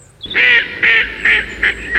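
A duck quacks loudly as a story sound effect, about five nasal, honking calls in a quick, slightly uneven rhythm, the last ones shorter, with no speech over them.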